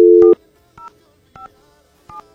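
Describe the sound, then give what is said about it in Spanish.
Telephone keypad dialing while entering a phone number again after a busy line. A steady tone plays at the start, then four short dual-tone beeps follow at an even, unhurried pace. “Se me van a desgastar los dedos de tanto marcar aquí estos números telefónicos.”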